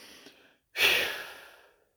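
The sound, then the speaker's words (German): A cleansing breath during a guided chakra meditation: a soft, airy inhale, a brief pause, then a loud, breathy exhale that slowly fades over about a second. “Reinigender Atemzug, ein und aus.”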